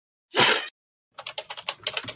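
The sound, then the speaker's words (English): Typing on a computer keyboard: a quick run of many crisp keystrokes clattering after a short silence, with no talk over them. “Sorry, how do you type it? I'll type it for you.”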